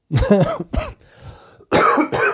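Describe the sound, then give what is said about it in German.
Coughing in a few harsh, throaty bursts, with a rough voiced start, then a quieter gap, then more loud rasping coughs near the end. “Da kommt der Husten direkt wieder.”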